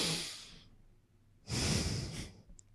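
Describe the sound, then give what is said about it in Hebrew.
A person breathing out slowly through the nose: two soft, airy breaths, the second longer and fuller, heard quietly with a pause between them. “ואז תוציאו בנשיפה. ותרגישו את האוויר. כבר. ברגע שאתם מרגישים את האוויר עובר בנחיריים שלכם”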